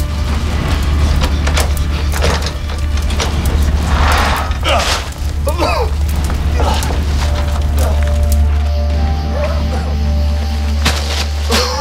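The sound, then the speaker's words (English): A burning barn crackles and pops loudly, with irregular sharp bursts over a constant low roar. “I said the barn is on fire! Call 911!”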